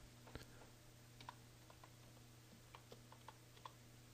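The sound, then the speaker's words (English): Faint typing on a computer keyboard, heard as sparse, irregular key clicks over a low steady hum. The taps are soft and scattered, with a few slightly sharper strikes. “let me just type this in again.”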